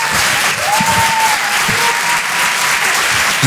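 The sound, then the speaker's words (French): Audience applause for a comedian taking the stage at the Apollo Théâtre in Paris: dense, steady clapping from a large crowd that holds at an even level for the whole stretch, with no voices standing out. “Sur la scène de l'Apollo Théâtre à Paris. Et en direct sur Rire et Chanson dans toute la France. Faites du bruit s'il vous plaît pour Certes Mathurin.”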